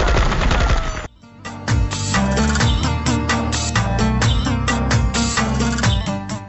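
Gunfire from smugglers: sustained rapid bursts of loud automatic fire crackle almost without pause after a brief lull near the start, over a heavy low rumble.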